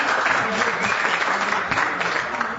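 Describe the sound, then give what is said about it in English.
Audience applause fills a live show on its third and final night, dense, steady and loud from start to finish without a clear break. “Give yourselves a hand.”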